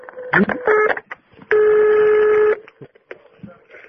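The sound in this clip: Telephone dialing tones while placing a call: a few short electronic beeps, then one steady tone lasting about a second, with brief talk around them.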